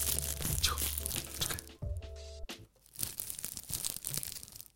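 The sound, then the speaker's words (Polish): Plastic foil is torn open, giving quiet crinkling, crackling and rustling that runs almost throughout, with a brief lull in the middle before the rustle resumes. “Weź tam, masz folikę, otwórz folię.”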